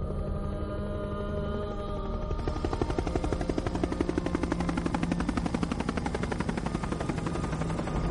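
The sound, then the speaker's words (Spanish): A helicopter flies between giant stone bridges. Its rotor thuds in a loud, rapid, steady chop that grows more pronounced after the first couple of seconds, over a continuous engine hum. “El helicóptero vuela entre los gigantescos puentes de piedra.”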